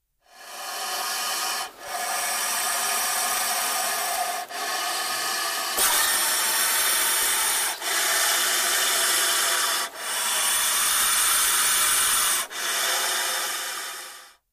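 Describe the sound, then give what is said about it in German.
A puff adder in Africa gives its deep hissing final warning while puffed up: long, rough, rasping hisses in several sustained bursts separated by brief pauses, steady and fairly loud, with no voices. “Gleichzeitig gibt sie ein tiefes, zischendes Geräusch von sich. Das ist ihre letzte Warnung. Also, wenn Sie folgendes Geräusch in Afrika hören, dann ist Vorsicht geboten.”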